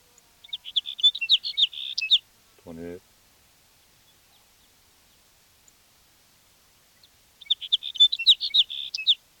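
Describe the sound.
A sage sparrow sings two bursts of rapid, high, chirping notes, one at the start and one near the end. A brief spoken word falls between them, with silence around it.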